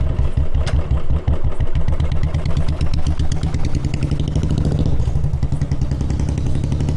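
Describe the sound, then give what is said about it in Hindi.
A Royal Enfield Bullet motorcycle engine runs with a loud, steady, low-pitched thumping beat and a mechanical clatter layered over the rhythmic pulses. “जी हां, हम आए थे bullet से”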